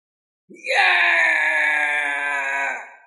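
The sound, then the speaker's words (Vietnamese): A single anguished human wail of pain rises sharply and then holds a sustained, steady pitch for about two and a half seconds before fading out. It is heard alone, with silence before it. “Một tiếng kêu bi thương từ trong đại kỳ truyền ra, tỏ vẻ vô cùng thống khổ”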